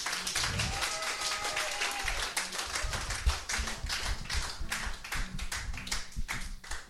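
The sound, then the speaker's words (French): A church audience claps in praise of God, a long run of many crisp claps with a rhythmic feel, and voices sing or call out at moments. “Proclamons la majesté de Dieu, acclamons Dieu, acclamons Dieu.”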